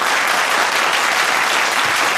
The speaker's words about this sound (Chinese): 让我们先用掌声有请张汤老师为第六组的四位选手进行点评。